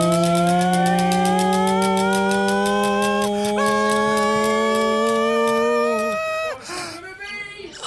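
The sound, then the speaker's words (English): A prize wheel spins with a rapid, steady ticking over a loud, sustained synthesized tone that glides slowly upward, ending in a rough, noisy burst. “I'm going to spin the wheel. Ready. Spin it. Here we go.”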